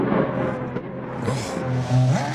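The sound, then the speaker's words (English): A Formula One car roars flat out down a race circuit's back straight, its engine a loud, sustained, buzzing drone with a rising whine toward the end, with no voices. “You know what that sound is? It's the beautiful sound of a Formula One car just flying down the back straight.”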